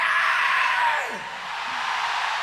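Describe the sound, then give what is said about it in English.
Primal scream from a live music audience: a loud, sustained wash of many voices yelling at once, holding steady for a couple of seconds. “you can all do a primal scream, which is,”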